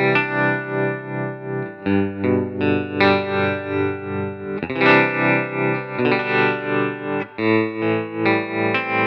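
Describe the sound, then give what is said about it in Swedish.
An electric guitar plays sustained, distorted chords through an effects pedal set to a slight tremolo, its volume pulsing gently while the chords change several times. “Och sen här låter pedalen då med en liten tremoloeffekt inställd.”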